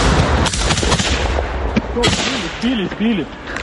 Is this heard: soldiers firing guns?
yes